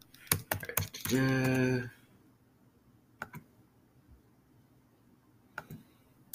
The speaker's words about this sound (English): Maybe we should just type in basketball player.